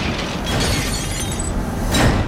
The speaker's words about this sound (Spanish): El huevotote. El huevotote. Así es que se revienta en un tiro al piso.